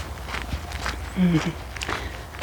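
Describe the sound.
Footsteps of a person out walking: a few light, irregular steps heard under steady talk.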